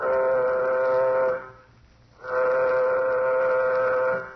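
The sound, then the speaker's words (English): A warning signal aboard a nuclear-jet spacecraft gives two long, steady, horn-like blasts with a brief silent gap between them. The tone is rich in harmonics and sounds alone. “Sound warning signal. Sound warning signal.”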